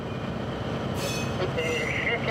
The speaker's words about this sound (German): Roland muss den Zug dafür aber erstmal rausschieben.